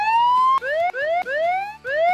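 A loud electronic siren wails in a series of repeated rising sweeps, the first one long and the later ones shorter and quicker, with no other sound.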